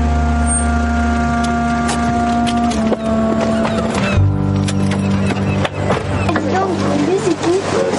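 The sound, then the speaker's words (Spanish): Car engine as the car arrives in a coastal village near Marseille and parks, a steady droning hum with a tonal whine that shifts lower partway through and keeps running to the end. “El coche llega a un pueblo costero cerca de Marsella y allí aparca.”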